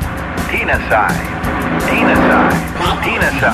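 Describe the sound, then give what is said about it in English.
A car engine roars at speed, swelling to a louder peak partway through and then easing, with people talking over the steady motor noise. “You do it with an automobile.”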